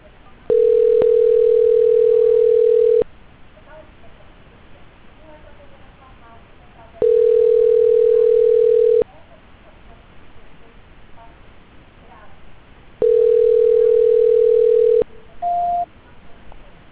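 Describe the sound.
A telephone ringback tone sounds during a call transfer: three long, steady mid-pitched tones of about two seconds each, separated by pauses of faint line hiss, then a short, higher beep.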